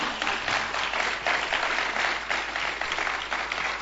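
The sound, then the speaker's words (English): A church audience claps to welcome a brother coming forward to share his testimony. The dense, continuous applause stays at an even level throughout. “Please put your hands together and welcome our brother George Arthur to come and share his testimony.”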